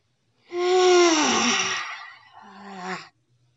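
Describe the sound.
A voiced exhale made while rising from a bend: a long, loud, breathy tone that slides downward in pitch, then a shorter, lower exhaled tone that fades out.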